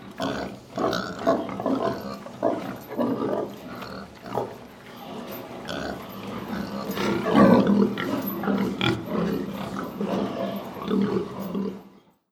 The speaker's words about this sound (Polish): Świnia.